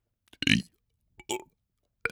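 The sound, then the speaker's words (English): Three short, forced burps come one after another, separated by silence. The first is the longest and loudest, and the last is brief and clipped. “I have to burp 3 times, apparently.”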